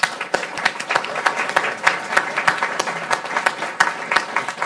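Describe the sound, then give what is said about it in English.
Applause from an audience at a Brookings event welcomes the Afghan ambassador and a minister, many hands clapping in a steady, moderately loud patter with sharp individual claps standing out. “So, given the protocol here and given how happy we are to have the Afghan ambassador and the minister, could you please join me in a hand to welcome them to Brookings?”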